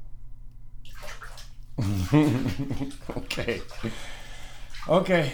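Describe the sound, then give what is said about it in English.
Water sloshing and splashing in a bathtub as a father washes a child's hair, the watery sounds coming in bursts beneath frequent talking voices. “Now, you want Daddy to wash your hair?”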